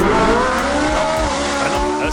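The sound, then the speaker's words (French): A large Ferrari sports car driven by an electric motor revs loudly and continuously, with a strained, harmonic whine that shifts in pitch. A faint squeal like tyres runs alongside it. “Une très grosse Ferrari, ça. Eh bien, à partir d'aujourd'hui, ça va aussi sonner comme ça.”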